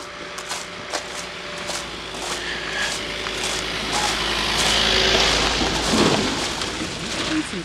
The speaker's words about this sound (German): Das Auto schon wieder. Ah, der fährt aber auch überall her.